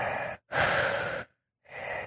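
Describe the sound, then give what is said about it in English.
A voice imitates the loud, heavy breathing of a chronic mouth breather: harsh, hissing breaths, a short one, a longer drawn-out one, then another starting near the end. “so it's that audible breathing”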